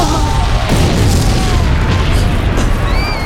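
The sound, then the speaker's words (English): A bomb explosion fills the whole stretch with a loud, sustained roar and heavy low rumble, with a few faint tonal whines running through the noise. “The impact of the bomb took me off my feet.”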